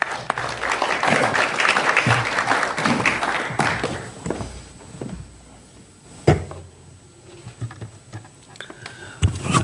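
Audience applause welcoming a professor before a lecture on social care at LSE. The clapping is dense and steady for about four seconds, then dies away into quieter room noise broken by a few scattered knocks.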